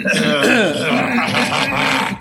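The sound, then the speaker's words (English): A gravelly, voiced throat clearing lasts about two seconds before a recording starts. It is loud and drawn out, with a rough, rumbling grunt-like quality. No one talks over it. “Let me get my annoying throat clearing up.”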